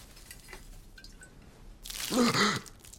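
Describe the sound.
Water poured over a person's head lands in one short, loud splashing burst lasting under a second, preceded by a few faint drips.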